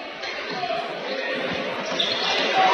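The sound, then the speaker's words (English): A basketball being dribbled by the Cats during a game, with repeated bounces thudding over a constant background of game noise that grows slightly louder toward the end. “Just a lot of dribbling here for the Cats.”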